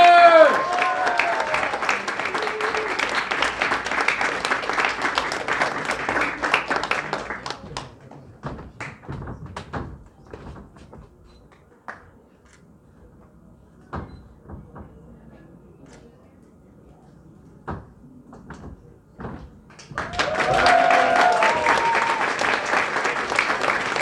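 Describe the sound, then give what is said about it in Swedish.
Loud applause from an audience as a contestant comes on stage. It drops to scattered taps and thumps midway, then swells back to full clapping near the end. “Och med ett jubel som lyfter taket hälsar vi vår första deltagare välkommen upp på scenen”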